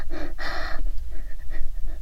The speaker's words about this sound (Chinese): 别再对着我的脚又吸又闻的了。你这样大口大口的吸气，到底是做什么？